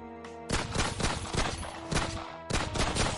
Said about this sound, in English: Only if I had loaded it, the intruder turned around and shot her.